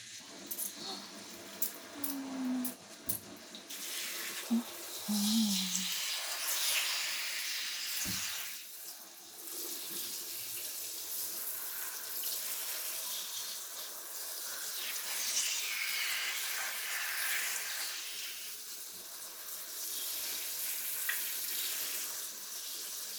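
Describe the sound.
Water running to rinse hair makes a soft, steady rushing stream that lasts throughout at low volume. A few brief knocks come early on.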